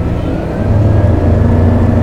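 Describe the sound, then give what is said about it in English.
Race cars roar at the start of a race, a dense low engine rumble that steps up louder after about half a second and then holds steady. “let's go out and watch the start of a race, shall we?”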